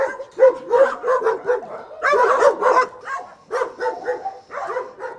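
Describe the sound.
Dogs bark and yip at a dog shelter housing more than a hundred dogs. Many overlapping barks come in quick, irregular bursts with a few whimpers between them, loud and without talk.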